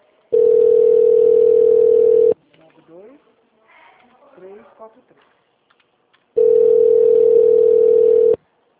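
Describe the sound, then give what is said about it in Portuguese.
Telephone ringback tone on an outgoing call: two long, steady electronic tones separated by a pause, with faint chirping sounds in the gap between them. “Não, ele tá chamando, ó.”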